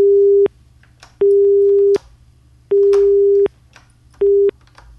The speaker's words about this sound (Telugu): Call cut అయింది.